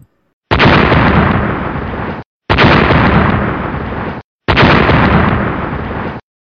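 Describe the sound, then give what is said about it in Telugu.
Three loud bomb explosions break the silence of a village at midnight. Each is a sudden, roaring blast that lasts nearly two seconds and slowly decays, with brief gaps of silence between them. “బాంబుల ప్రేలుడుతో అర్ధరాత్రి ప్రశాంత వాతావరణం చిన్నాభిన్నమైంది”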